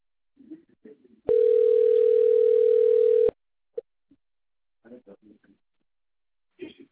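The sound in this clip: A telephone ringing tone plays while a call is put through to a customer service advisor: one steady, even tone lasting about two seconds, with faint, brief voice fragments before and after.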